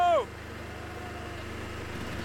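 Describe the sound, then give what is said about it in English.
A smoking electrical generator beside tents at a campsite sputters out: a loud whine drops sharply in pitch and cuts off within a fraction of a second, leaving a steady, low engine rumble. “A smoking electrical generator packs up by one of the tents.”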